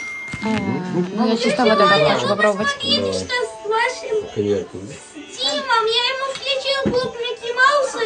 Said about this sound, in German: die Kinder drehen gerade durch. Es ist sehr laut, aber auch sehr fröhlich.